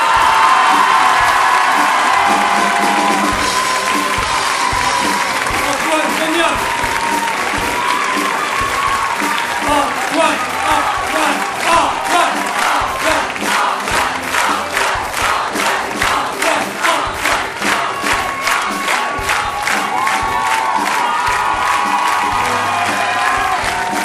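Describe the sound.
Crowd applauding and cheering as a sound technician is called to the stage at a music event; dense, sustained clapping with shouts that settles into loud rhythmic clapping in unison through the middle before loosening again.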